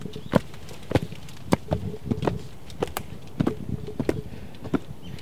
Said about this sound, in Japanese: 上登っていきましょう石段が続きます